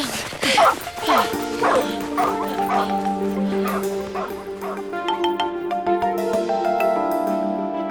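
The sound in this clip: A guard dog barks and yips over and over in quick, sharp bursts, loud at first, then fainter, with some whimpering. Voices are heard alongside it.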